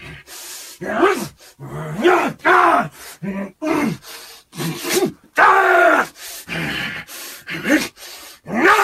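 Growls, grunts and strained roars from an actor voicing Wolverine fight scenes, many short forceful vocal bursts separated by brief pauses.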